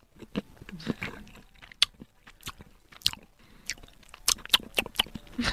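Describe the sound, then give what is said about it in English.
Chewing and biting like a mukbang eating video: many quiet, crunchy bites and wet mouth sounds in an irregular rhythm, with no one talking. “it sounds like one of the mukbang videos.”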